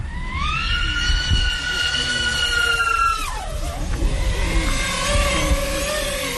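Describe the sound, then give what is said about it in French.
An FPV drone takes off and accelerates with a high, buzzing motor whine whose pitch climbs quickly, holds steady, then drops sharply partway through and continues at a lower, rougher pitch. “Je viens préarmer mon drone et l'armer. Et là, je suis en mesure de décoller. Ce qu'on peut voir, c'est que le FPV, c'est aussi très rapide. Hein, on va le voir. Je vais faire une accélération.”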